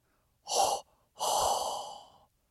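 Hot breath blown into a microphone: a short, airy breath, then a longer breathy exhale that fades out, with no other sound.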